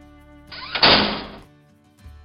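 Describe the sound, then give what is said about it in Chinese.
A door is shut with a single dull thud that swells and fades over about half a second. Soft, sustained background tones continue underneath, and a faint knock follows at the end. “小兔子关上门，气呼呼的离开了家。躺在床上睡觉的妈妈被这个声音给惊醒了。”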